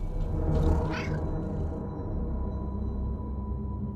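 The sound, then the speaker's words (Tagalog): A cat gives a single rising meow near the start, heard over a continuous low rumble that persists after the cry fades. “Mga lintik kayong pusa!”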